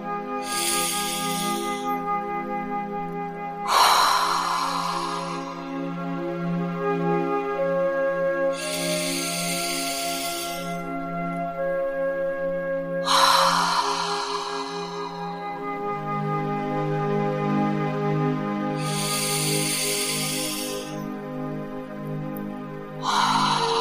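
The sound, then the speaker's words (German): Slow, deep breaths drawn in through the nose and let out through the mouth: soft, airy rushes that rise and fade at an even pace over a steady, sustained music bed. “nimm dir jetzt drei tiefe Atemzüge durch die Nase ein und durch den Mund wieder aus”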